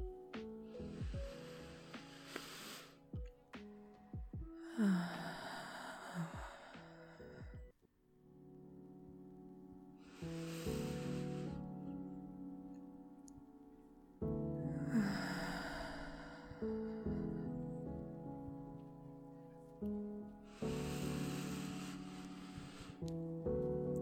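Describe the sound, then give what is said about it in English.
Slow, deep shared breaths rise and fade at even intervals, about five audible breaths over a soft, sustained tonal background. “Let's just breathe together for a little.”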